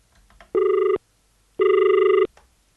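An incoming call sets a telephone ringing: two long, loud electronic ring bursts with a steady buzzing tone, separated by a short pause and standing alone without talk.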